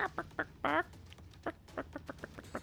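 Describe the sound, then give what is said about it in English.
A person imitates a chicken during a tabletop role-playing game session, clucking in short quick bursts with one longer squawk early on, quiet and without other talk. “And the chicken makes a break for it.”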